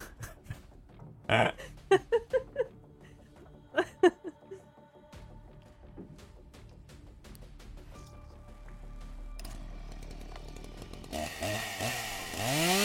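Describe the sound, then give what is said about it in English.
Chainsaw-like buzzing swells from a low drone into a loud, rough, sustained roar toward the end, preceded by several short, sharp bursts. “Yeah, that's a chainsaw. That's gonna be what it is.”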